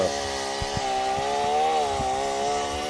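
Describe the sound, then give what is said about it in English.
A sloppy, dull Stihl MS-21 chainsaw runs steadily while cutting an obstacle out of the way on a greasy road, its engine droning at a slightly wavering pitch with a few low knocks underneath. “So here goes the chainsaw. We're going to cut this out of the way”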